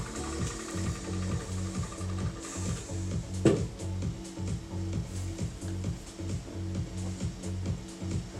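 A failing DJ light machine gives off a steady, rhythmic mechanical whirring and clattering in a tight repeating pattern, fairly faint throughout, with one sharper click near the middle.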